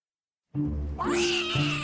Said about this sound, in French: Il est infernal, ce chat. Il va jamais nous laisser tranquille